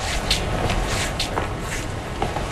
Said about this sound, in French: Là, je vais vous demander de marcher 10 pas, comme vous marchez chez vous, le temps que les systèmes enregistrent la marche.